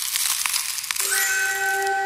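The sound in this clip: A telephone sound effect used as a radio contest cue: after a brief stretch of crackly noise, a steady, bright electronic tone with ringing overtones sounds and holds to the end.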